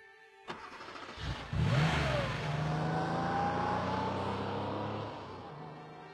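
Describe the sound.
A car engine starts after a sharp click, then revs with a clearly rising pitch as the car drives off. The steady engine drone continues and eases slightly at the end.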